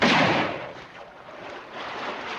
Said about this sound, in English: Moments later, the brothers are in the river, crossing it with their horses, while the posse shoot down on them.